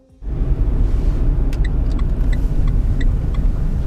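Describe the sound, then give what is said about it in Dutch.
A car drives onto the grounds of a holiday park. A loud, steady low rumble of engine and road noise starts abruptly after a brief quiet moment, with light clicking rattles scattered through it. “ik rij nu volgens mij het terrein in van het vakantiepark. Of ik ben in ieder geval heel erg in de buurt.”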